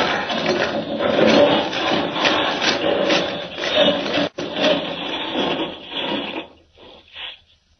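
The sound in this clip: Harsh, continuous grinding and rasping as a vehicle bores straight through solid rock toward mine galleries. The noise stays loud and steady, with one abrupt brief gap partway through, then breaks up into fainter scraping bursts before stopping.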